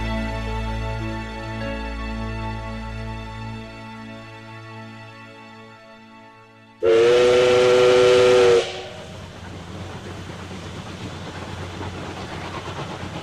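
Steam train whistle at a railway station: one loud, high, piercing blast of about two seconds breaks through a quieter steady tonal hum, followed by a low rushing hiss and rumble.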